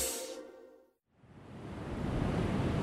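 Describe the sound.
Ocean waves wash onto a littered beach, a broad rushing surf noise that swells from near silence and stays loud and steady to the end.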